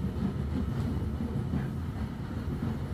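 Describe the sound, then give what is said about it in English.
Hogwarts Express train rolling onward, a steady, full low rumble with a faint rhythmic pulse running unbroken through the whole stretch, with no voices over it. “As you listen to the Hogwarts Express.”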